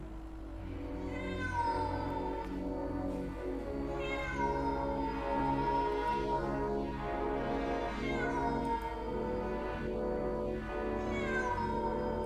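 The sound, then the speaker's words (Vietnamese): A cat upstairs yowling piteously, several long, drawn-out wailing meows that rise and sag in pitch and come in a few separate bouts over a low steady background hum, with no voices. “con mèo ở trên tầng bỗng kêu lên thảm thiết.”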